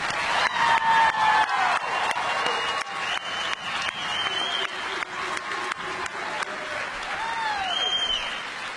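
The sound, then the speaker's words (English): A graduation ceremony audience applauds and cheers for the class of 2024. Sustained, loud clapping is topped by whoops and shouts and dips briefly before surging on. “Ladies and gentlemen, let's hear it for the class of 2024.”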